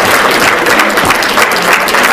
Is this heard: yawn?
no